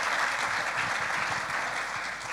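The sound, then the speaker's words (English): Audience applause for two women after they shared at a church gathering: a dense, even clatter of many hands held at a constant level from start to finish, with no voices. “So give these ladies a clap.”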